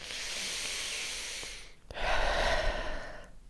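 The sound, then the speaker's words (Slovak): A deep breath in and out: two long, hissing breath sounds, the first steady and the second a little louder and rougher, with no speech. “Odporúčam najskôr hlboký nádych a výdych, asi takto.”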